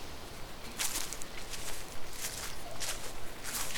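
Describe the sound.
Soft footsteps walk slightly uphill through a new residential area, a faint, steady series of light scuffing steps over low background hiss.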